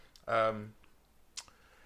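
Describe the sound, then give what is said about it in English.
A single short, sharp click comes near the end, after a brief voiced sound and a quiet pause. “That was a click.”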